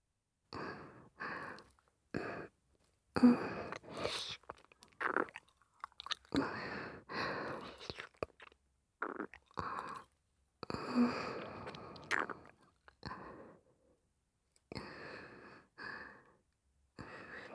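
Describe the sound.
Wet tongue-licking and mouth sounds in an intimate roleplay where the face is licked: a quiet series of soft smacking, slurping bursts separated by short silences, with no talk.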